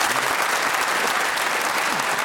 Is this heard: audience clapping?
yes